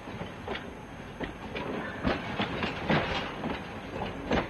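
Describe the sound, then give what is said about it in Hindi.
A train departing from a station, its rolling rumble carrying a faint rhythmic clickety-clack of wheels over rail joints, fairly quiet and steady with no voices. “आपकी इस तरह निहारते रहने से train रुक तो नहीं जाएगी, बहुत दूर निकल गई है।”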